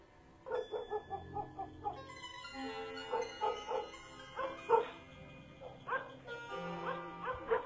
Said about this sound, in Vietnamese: Loáng thoáng ở ngoài kia có tiếng chó cắn ma nhấm nha nhấm nhặng từ tận đầu xóm vang lên.